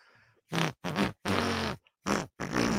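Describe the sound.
A voice imitates a fart with five wet, blubbering voiced bursts of low pitch, the middle one longest, with short gaps between them and no other sound.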